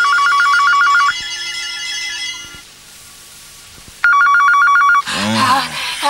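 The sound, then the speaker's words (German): A telephone rings at three in the morning in a dramatized night scene, its electronic warbling ring sounding in two loud bursts separated by a quieter pause, followed by a voice at the end. “Und dann klingelt das Telefon um 3 Uhr nachts zum zweiten Mal.”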